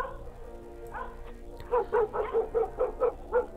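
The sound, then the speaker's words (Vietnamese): A dog barks loudly at night inside a school, a quick run of sharp, evenly spaced barks filling the second half after a quieter opening. “nó có đứng mà sủa inh sủa ỏi lên. Nó chạy khắp trường, sủa liên hồi, thỉnh thoảng cào cào vào vách tường hay là cố cắn cái gì đó”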